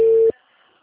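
A single short, steady, mid-pitched telephone tone sounds while a call is being placed, then cuts off abruptly and leaves near silence.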